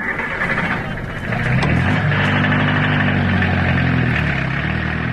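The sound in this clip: A taxi's car engine runs with a steady low, droning hum that grows louder after about a second and then holds level to the end.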